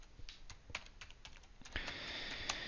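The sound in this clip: Keystrokes on a computer keyboard as a user name is typed into an administration tool: faint, irregular clicks and taps in a quick series, with no talk over them.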